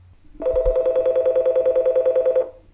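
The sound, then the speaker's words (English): A telephone ringing tone sounds on the line as a call to a garden center goes through: one steady-pitched electronic tone with rapid, even pulsing, lasting about two seconds on its own before stopping. “Let me see if I can dial this. Hold on. Bear with me just a second. Okay, here we go. And it's dialing.”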